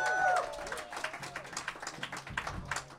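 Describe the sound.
An audience claps at a live show taping at the Bottle Rocket Avenue venue: a voice briefly opens, then scattered, fairly quiet clapping runs on steadily.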